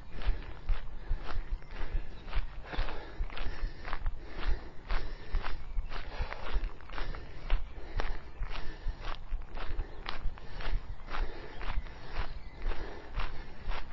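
Footsteps of people walking outdoors at an easy pace before a jog: a long, steady series of many even scuffing steps with a regular rhythm and no talk.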